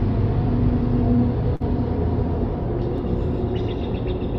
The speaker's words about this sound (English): I love all the noise of the traffic because it makes me slow down and take a breath.